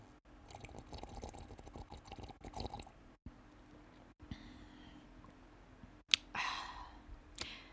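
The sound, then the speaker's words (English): A sip of morning coffee taken close up: a quiet mouth sound and a short slurp near the end, with faint clicks and soft mouth noises over low background hiss. No one speaks. “take a sip of my coffee”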